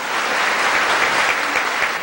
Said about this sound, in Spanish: démosle un aplauso porque ayer ascendió a general de la República.